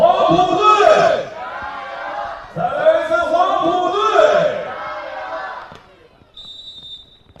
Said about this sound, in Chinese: 来，再次为我们双方运动员加油！首先是杨金队，再大声点，杨金队！